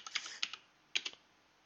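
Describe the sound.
Typing on a computer keyboard: a few short clusters of crisp, clicky keystrokes separated by brief pauses, faint and without talk.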